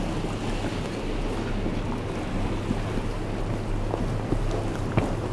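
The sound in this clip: Water laps at a pontoon by the shore in a steady low wash, with wind noise, a low hum and a few faint knocks and splashes. No one talks.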